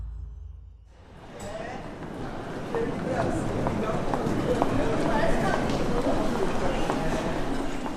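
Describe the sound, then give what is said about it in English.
Busy railway station concourse at Shinjuku Station in Tokyo, with constant crowd murmur and dense overlapping footsteps forming a steady bustle that swells slightly and holds throughout. “This is the sound of Shinjuku Station.”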